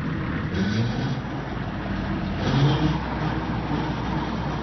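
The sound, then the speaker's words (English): A tractor engine used for digging up rocks and plowing runs with a steady, low rumbling drone. The sound is continuous and swells slightly in loudness a couple of times, with no talking. “A tractor.”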